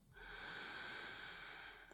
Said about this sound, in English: And we take a long, deep, full breath in